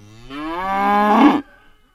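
A heifer on a New Hampshire farm gives one loud, drawn-out moo of just over a second, heard alone and ending abruptly, with a faint trailing breath after it.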